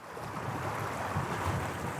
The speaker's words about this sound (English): A gush of water runs under the ruins of a factory, the power source of a long-gone paper mill.